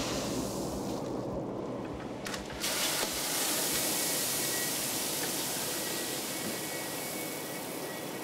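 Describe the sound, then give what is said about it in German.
Maize pours into the hopper of a wind-driven millstone that grinds it into animal feed. A steady, loud, hissing rush of grain runs throughout, with a brief rougher patch near the middle. “Hier füllt er gerade Mais nach. Der wird in diesem Mahlgang zu Futter aufgebrochen.”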